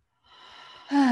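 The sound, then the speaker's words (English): A slow, soft, deep breath is drawn in during a calming breathing exercise, steady and airy, before a voice briefly starts at the end. “Taking another deep breath.”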